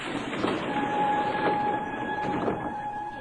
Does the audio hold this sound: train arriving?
yes